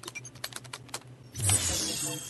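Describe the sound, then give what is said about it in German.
Typing on a device keyboard: many quick, irregular key clicks in a light patter, then a louder broad rushing hiss that takes over and holds to the end. “Und du tippst das alles ein.”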